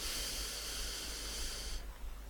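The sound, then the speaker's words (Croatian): A slow, steady breath drawn in through the nose during a guided breathing exercise, heard as a soft, continuous airy hiss that thins out near the end. “I još jedan put uzdah kroz nos.”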